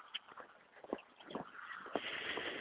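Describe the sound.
Footsteps on a brisk outdoor walk on a sunny day: a few faint, irregular soft steps, with a light hiss of background noise that swells slightly toward the end.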